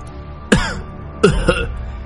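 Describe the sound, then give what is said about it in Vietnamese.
Violent, choking coughs from a person pinned under a heavy stone amid ruins and soaked in blood, rising in a few harsh, abrupt bursts over a steady low background. “Có tiếng ho sặc sụa vang lên”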